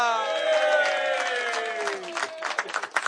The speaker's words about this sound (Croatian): Molim vas, veliki aplauz za Furija Radina!